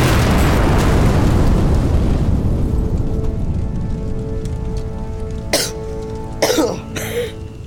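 A loud explosion set off by a burning fuse bursts with a broad, heavy boom that rumbles and slowly fades over several seconds, followed near the end by a few sharp coughs.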